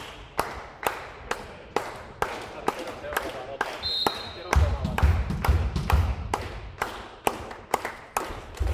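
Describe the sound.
A ball is bounced repeatedly by a volleyball player before a serve: many sharp, evenly spaced thuds in a steady rhythm, with a deep crowd rumble swelling in midway and a commentator talking over it.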